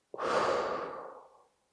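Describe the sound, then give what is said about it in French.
A single long breath is blown out during a relaxation exercise. The exhale starts abruptly, holds a soft airy rush, then tapers away into silence, fairly faint overall. “Une deuxième fois, on inspire et on souffle.”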